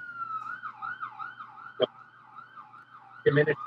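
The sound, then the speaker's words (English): A siren wails outside, its tone steadily swinging up and down in a repeating cycle. A brief sharp click cuts in partway through, and a harsher, louder burst of noise comes near the end. “Yeah, we got some sirens. Oh. Fuck off, sirens.”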